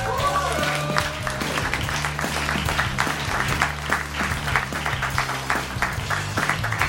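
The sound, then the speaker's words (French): A studio audience at an evening talk show applauds and cheers to welcome a guest author. Dense, rhythmic clapping holds at a steady loudness for the whole stretch. “Effectivement, la foule est en délire.”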